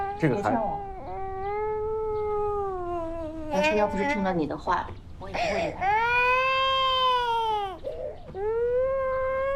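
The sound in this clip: A baby cries in long, high, wavering wails, several drawn-out cries broken by short catches of breath, while adults speak soothingly around it.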